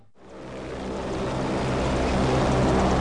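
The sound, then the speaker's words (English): Rising roar of a U.S. Jayhawk helicopter lifting off from a ramp and hovering near the end of a runway: a broad, rushing engine and rotor noise that swells during the first second, then holds steady and loud, with no voices. “Out on the ramp, the U.S. Jayhawk lifts off first. It circles around and hovers near the end of the runway”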